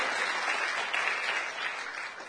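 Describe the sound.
A church audience applauding during a service, with dense, continuous clapping that holds steady throughout without pause.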